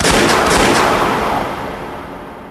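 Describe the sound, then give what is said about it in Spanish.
A single loud gunshot from a drawn gun: a broad, heavy blast at the outset whose tail decays steadily over the next two seconds. No one speaks. “Saca su arma y nos dispara.”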